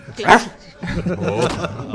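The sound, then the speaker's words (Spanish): A person imitating a dog's bark, giving one sharp, loud yelp, followed by livelier voiced sounds and talk. “bautízate con un ladrido.”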